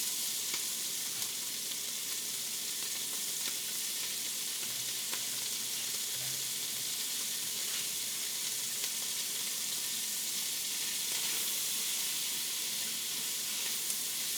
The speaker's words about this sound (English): All right, my salt pork is just beginning to brown. So I'm gonna add in my onions, sweat those down a little bit.